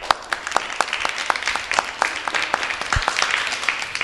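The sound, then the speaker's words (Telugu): Audience clapping for children after a school performance, many sharp individual hand claps standing out in a fairly sparse, brisk patter that continues throughout. “మరి ఈ పిల్లలందరికీ ఒకసారి చప్పట్లు కొట్టండి.”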